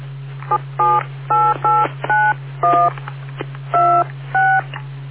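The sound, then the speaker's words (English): Telephone keypad dialing tones: a quick series of short, steady beeps at irregular intervals, each a pure two-tone chirp, over a constant low hum. “You know what? I'll dial it up directly.”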